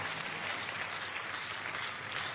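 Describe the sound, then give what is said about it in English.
Church audience applauding during an evening service, a steady, dense wash of clapping at even moderate loudness with no pauses. “Shall we give the Lord a big clap offering tonight?”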